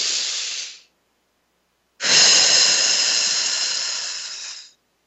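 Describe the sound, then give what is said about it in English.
A deep breath in, then a long exhale. A short airy breath fades out, and after a pause a long, even, hissing exhale runs for nearly three seconds before stopping. “Take a deep breath with a long exhale.”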